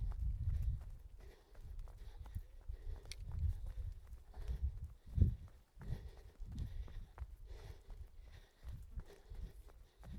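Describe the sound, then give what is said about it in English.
Footsteps of a runner on uneven, changing ground, a steady rhythm of soft thuds and scuffs, fairly faint throughout. “Yes, you're doing the same for your legs, but every time your feet go down there's a different bit of surface underneath it.”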